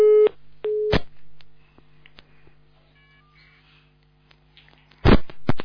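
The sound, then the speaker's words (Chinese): Telephone busy tone after a dropped call: two short, steady mid-pitched beeps, then a quiet, nearly empty line with faint ticks, ending in a few loud abrupt clicks and knocks. “哎，电话断了。”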